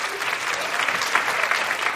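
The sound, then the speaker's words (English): Audience applause in a live crowd responding to a question about online dating, a dense, steady wash of many hands clapping that holds at an even level for the whole two seconds. “People here who've been online dating, can you applaud women, especially if you've been dating online?”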